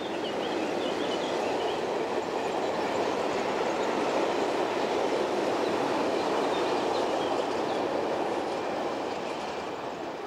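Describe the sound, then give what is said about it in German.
A heavily loaded ore train of 24 wagons rattles over the Pünderich viaduct in the Moselle valley, a dense, continuous clattering roar of wheels and wagons that holds steady and loud throughout. “Ein Erzzug mit 24 vollbeladenen Waggons rattert über das Pündericher Viadukt Richtung Frankreich. Weithin hörbar durch das ganze Tal.”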